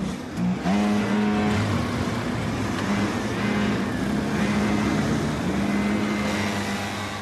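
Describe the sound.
Racing cars being driven on a track in a cadet race, giving a continuous, loud engine drone whose pitch shifts as the cars accelerate and ease off. No talk is heard.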